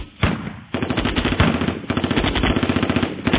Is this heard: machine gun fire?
yes

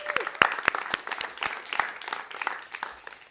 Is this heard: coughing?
no

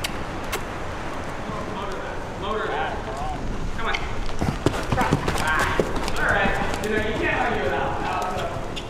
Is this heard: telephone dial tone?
no

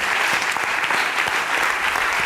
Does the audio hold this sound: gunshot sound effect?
no

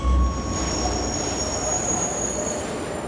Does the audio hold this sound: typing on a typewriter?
no

